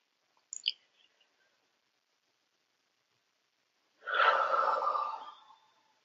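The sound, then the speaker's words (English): A single deep breath taken during a guided calming exercise: a breathy rush of air lasting over a second after near silence, preceded by a couple of faint clicks. “So let's take another deep breath together.”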